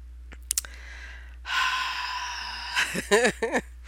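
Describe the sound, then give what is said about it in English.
A deep breath drawn in by an emotional speaker: a long, airy inhale lasting over a second. Several short, wavering, voiced breaths follow, with a few faint clicks before it. “I'm taking a deep breath, because that just really means a lot.”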